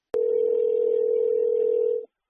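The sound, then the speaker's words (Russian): A steady telephone line tone sounds while a call connects: one unbroken, mid-pitched tone lasting about two seconds, then it cuts off. “Оставайтесь на линии, идет соединение.”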